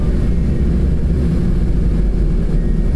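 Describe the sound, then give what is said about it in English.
Air rushing against a car windshield while driving on a snowy road, a constant low roaring rumble with no breaks or voices. “that noise that you're hearing is actually the air blowing up on the windshield”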